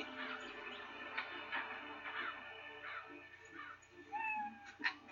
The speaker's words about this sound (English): that's a cat